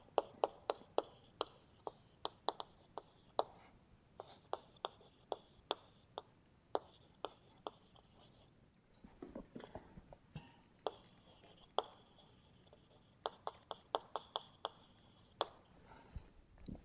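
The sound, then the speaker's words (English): Writing by hand during a physics lecture gives many quick, sharp taps and scratches in irregular bursts, fairly quiet, with short pauses between groups of strokes. “let me just write down.”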